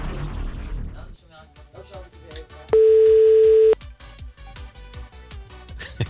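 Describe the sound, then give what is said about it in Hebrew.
A telephone line while calling a toy shop: a single steady ringing tone of about one second stands out over rhythmic background music. “בוא נתקשר לחנות, יודע מה? בוא נעשה את זה יותר פשוט. בוא נתקשר לחנות.”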